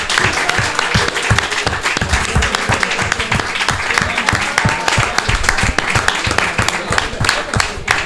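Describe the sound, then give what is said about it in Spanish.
Audience applause at a Comic Con held in a bookshop, loud, dense clapping that continues steadily throughout without a break. “de nuevo pido un fuerte aplauso para toda la gente de la librería Esa Cultural por esta Comic Con que se ha currado desde las 10 de la mañana”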